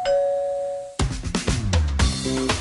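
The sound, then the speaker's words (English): A Ring video doorbell chime rings as a steady, sustained pair of clear tones, then gives way abruptly to a louder, busier burst of other sound. “You do not have to have that worry with the Ring Video Doorbell.”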